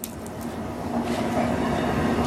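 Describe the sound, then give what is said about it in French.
A train sits at a station platform, giving off a steady low rumble with a faint constant hum. The sound stays fairly loud and even throughout, with no distinct clicks or horn. “Il y a un train. Regarde le train.”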